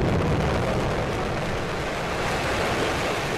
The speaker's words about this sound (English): The private space company SpaceX launched a Falcon 9 rocket carrying 10 satellites into orbit Friday. The rocket lifted off from Vandenberg Air Force Base in California.